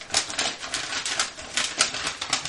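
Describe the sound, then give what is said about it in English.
A sticky envelope is pried open, producing many crisp paper crackles and small tearing bursts in quick, uneven succession. The sound is moderately loud and continuous throughout. “It's kind of sticky. Yeah. I got the envelopes at Ricky's. Hold on, it's almost there.”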